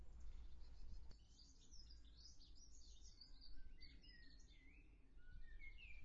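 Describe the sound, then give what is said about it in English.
Blackbird song outside a shed: a faint, continuous run of fluttering, warbling high notes over a low steady rumble, with no voices. “Can you hear that blackbird in the background?”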